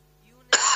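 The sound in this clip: A single sharp cough from someone whose yerba mate went down the wrong way, bursting out suddenly after a moment of near silence and carrying on as a loud, rough fit to the end.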